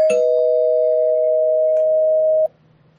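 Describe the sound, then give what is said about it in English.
A spoiler-alert bell sound effect rings out as a single steady electronic tone that holds one clear pitch for about two and a half seconds, then cuts off abruptly into near silence. “where are you, Spoiler Bell?”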